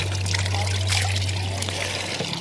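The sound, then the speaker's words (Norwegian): Cold running water trickles in a steady, continuous flow, with a light splashing texture and a low, constant hum beneath it. “It's got kind of cold water. Det vann som renner her.”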